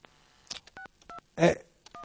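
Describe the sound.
Touch-tone dialing of a telephone to call back a butcher's shop: three short two-tone beeps at uneven intervals, with faint clicks and a brief noisy burst between them.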